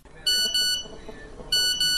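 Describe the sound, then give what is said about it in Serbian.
Phone text message notification beeps: two pairs of bright, high electronic tones, each pair a quick double beep, separated by a short pause over faint background noise. “Budi me poruka.”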